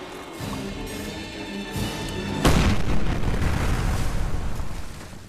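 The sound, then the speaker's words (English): A grenade exploding after being thrown down a manhole: a single heavy boom bursts out of a low drone and trails into a long, rumbling decay. “He pauses to throw a grenade down at the basilisk. Up on the surface, everyone hears it go off.”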